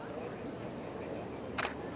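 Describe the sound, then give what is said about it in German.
A camera takes a photo with a single crisp shutter click near the end. It stands out from a very quiet, steady background hiss. “Also hier mache ich jetzt nochmal ein Foto.”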